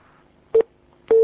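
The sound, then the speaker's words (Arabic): A phone line cuts off during a call-in, leaving two loud, short electronic beeps at one steady pitch, the second held longer than the first, over near silence. “يبدو ان الخط انقطع.”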